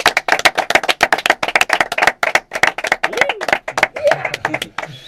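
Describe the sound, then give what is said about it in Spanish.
Audience applause: a dense, fast run of sharp hand claps that holds fairly steady, then thins slightly toward the end. “aplauso, joder, no se diga.”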